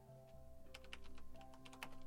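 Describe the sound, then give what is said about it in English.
Quiet typing on a computer keyboard: irregular light key clicks over a low steady hum, with no voices. “Yep, type that in there. Put that down. Control V that in that.”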